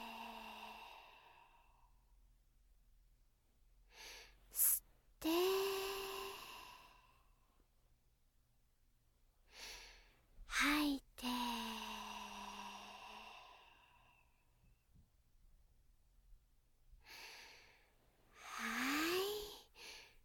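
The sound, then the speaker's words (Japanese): Deep breathing in and out, three slow, airy breath cycles with quiet gaps between them. Each long exhale carries a soft, voiced sighing tone, and the whole thing is faint. “吸って、吐いて、”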